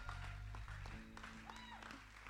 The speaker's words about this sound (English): And while you're still standing and clapping, why don't we just honour our senior pastor and just give Pastor Andrew a hand as he comes forward.